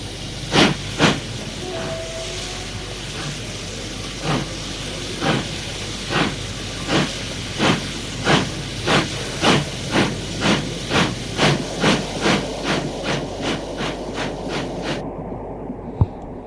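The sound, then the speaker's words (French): A steam train at a station gives a steady hiss of steam beneath regular loud chuffs that come faster and faster before cutting off near the end. “Il y a du coup beaucoup de monde qui attend le train. Enfin, le train arrive.”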